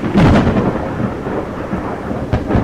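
Thunderstorm with rolling thunder and rain, a loud, continuous low rumble over a steady wash of rainfall, with sharper bursts of thunder near the start and again near the end.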